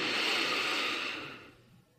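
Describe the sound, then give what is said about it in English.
One long, deep inhaled breath makes a smooth, airy rush of air that holds steady and then fades away near the end, heard alone without speech. “And let's take one final deep breath in.”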